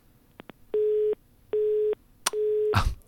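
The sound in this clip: Phone busy tone after a mobile call dropped: a few faint clicks, then three evenly spaced low steady beeps, ending in a short rough burst of noise.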